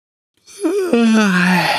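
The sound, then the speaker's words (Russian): A voice performs a drawn-out yawn for two glass toy cats curling up to sleep. A breathy onset leads into a long voiced tone that wavers, then slowly slides downward in pitch. The sound is clear and stands alone. “Зевнули Нюша и Люша, свернулись калачиком и уснули.”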